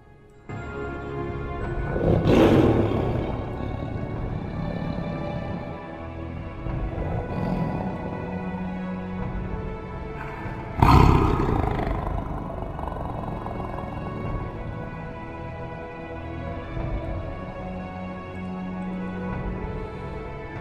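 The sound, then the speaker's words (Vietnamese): Deep, rumbling roar of the mythical beast Bạch Trạch, a loud, sustained growl that surges sharply twice, once near the start and again midway, then rumbles on steadily to the end. “Tiếng phẫn nộ của nó gầm lên, vang vọng cả trời đất, chấn động cả thiên địa.”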